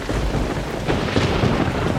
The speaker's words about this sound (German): Die Karsteinerhütte im Regen.